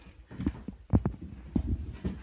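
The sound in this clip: Footsteps walk across a room to fetch a book: several soft, low thuds in an uneven rhythm, fairly quiet and without talk.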